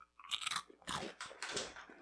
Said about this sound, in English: I'm crunching in my ear. Isn't that delicious? That's actually really good. What is that? It's called moon cheese.